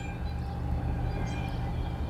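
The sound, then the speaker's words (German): A freight train passing makes a steady, continuous low rumble with a rough mechanical drone that holds an even loudness throughout, with no voices over it. “Das ist einer. Das ist ein Güterzug.”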